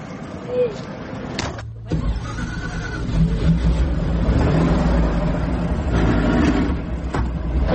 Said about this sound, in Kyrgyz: Ал үчүн атайын ушундай союз кезинен бери каттап жүргөн эски автобустар каттамды аткарат. Анда эмесе кеттик.